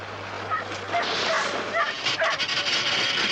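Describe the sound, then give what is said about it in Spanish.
Several dogs whimpering, yipping and barking while being given electric shocks, a continuous overlapping chorus of high, strained cries with no break, over a low steady hum in the first half. “¿Están electrocutando a esos perros?”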